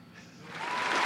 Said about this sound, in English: Hit the applause